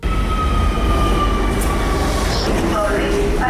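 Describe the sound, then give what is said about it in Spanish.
A metro train runs on underground line 1 toward Torrente, giving a loud, steady rumble that fills the whole clip, with thin high whining tones drifting over it. “Nuestra compañera Inma Morán ha bajado al metro para hacer el mismo recorrido que hizo el convoy siniestrado y preguntárselo a los usuarios.”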